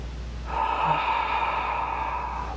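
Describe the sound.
Deep breathing: one long, slow, airy breath lasting about two seconds, steady and moderately loud, over a low constant hum and faint sustained tones.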